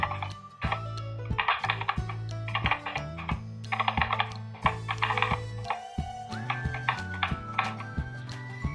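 Typing credit card details on a computer keyboard: many rapid, clicky keystrokes in short bursts, layered over steady, sustained tones from background music.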